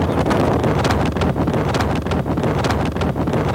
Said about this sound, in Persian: من پشت موتورم، یه 5 دقیقه دیگه میرسم استودیو.